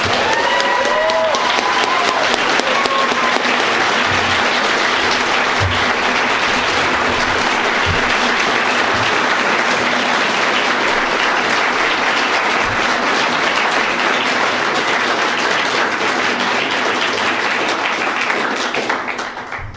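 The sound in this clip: Audience applause welcoming author Neal Stephenson at a Tattered Cover bookstore event, loud, dense clapping that carries on steadily for about twenty seconds before easing off, with a few voices briefly heard at the start.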